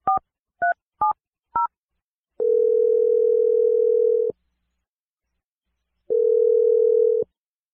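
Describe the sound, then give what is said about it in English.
Telephone dialing: four short two-tone keypad beeps, then two long steady ringing tones separated by a pause of silence. “So I'm going to dial her number right now.”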